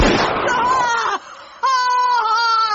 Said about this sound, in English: The gun fired.